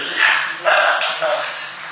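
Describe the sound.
Dog barking: a few short, muffled barks come through a thin, low-fidelity recording, set against a hissy, noisy background.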